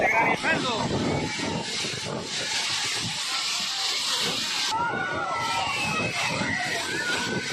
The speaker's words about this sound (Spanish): Se llama reventón húmedo y suena así.